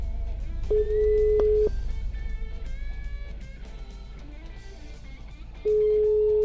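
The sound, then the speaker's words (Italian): Ringback tone of an outgoing telephone call: a steady mid-pitched beep about a second long, then a pause filled with faint background tones before the beep returns. “Chiamo Moreno Seveso, lavoro.”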